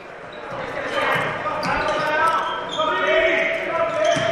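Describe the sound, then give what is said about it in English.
Basketball dribbled on a hardwood court during a game, the bounces running under steady, excited play-by-play commentary and crowd noise. “Rapids puts it on the floor. Now out on top, bobbled with the basketball. That's Jackson Schooley. He's got the dribble.”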